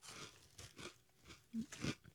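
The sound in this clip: Crunchy chewing of a strawberry-scented candy dusted with pink powder: a few crisp, moist bites and crunches in separate bursts, fairly quiet, with no talk.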